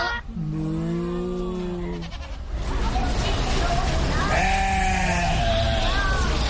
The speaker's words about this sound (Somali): noora neefka halkaa taagan ee laxda ah ee wixii maxaad af ingiriisi ahaan ugu yeertaan in english they are called sheep soomaali ahaanna waxay noqonaysaa ido ido